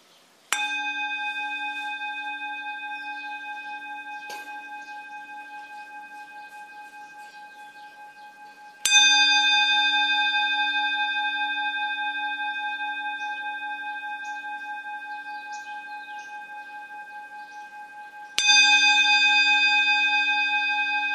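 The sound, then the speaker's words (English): A bell is struck three times, spaced several seconds apart. Each stroke opens bright and then rings on in a long, pure, sustained tone that slowly fades before the next strike. “let's listen to the sound of the bell.”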